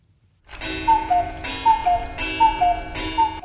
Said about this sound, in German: Aber Fernsehecke und Kaffeemaschine sind verwaist. Der Kuckuck pfeift allein vor sich hin.